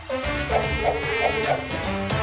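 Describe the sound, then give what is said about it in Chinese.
A housefly buzzes in a steady droning hum with a few pulsing swells, loud and alone through the short clip. “讨厌的苍蝇！”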